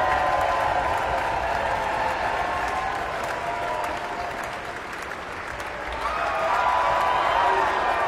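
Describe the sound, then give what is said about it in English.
Concert audience applauding after Mahler's First Symphony as conductor Stéphane Denève bows and the orchestra stands: sustained dense clapping that dips midway and swells again, with a voice talking over it. “A wonderful, triumphant ending there. Meister Deneve bows, turns to the orchestra, acknowledges each section, and now the full orchestra is standing, receiving the appreciation of the audience.”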